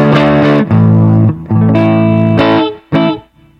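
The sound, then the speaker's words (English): Electric guitar through a tube amp set to full Q mode, played with a light touch, gives a greasy, distorted breakdown. A few loud, sustained chords ring with a harmonically rich tone, and the last one fades out. “And then back to full Q, which sounds similar but has a greasier breakdown.”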